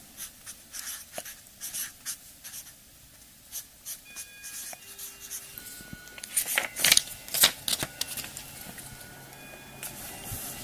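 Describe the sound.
Handwriting with a pen on paper, many short scratchy strokes that start faint and sparse, then grow busier and louder in the second half, with no voices.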